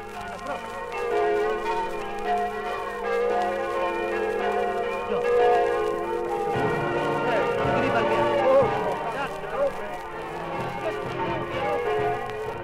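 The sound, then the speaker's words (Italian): Church bells of a Friulian village on the right bank of the Torre river ring together with a village band during a 1955 Christmas-season homecoming, a dense, sustained wash of overlapping pealing and brass tones that stays steady throughout. “Le campane e la banda di un paesino sulla sponda destra del torre salutano i reduci dalla Francia, dalla Svizzera, dal Belgio, dal Lussemburgo.”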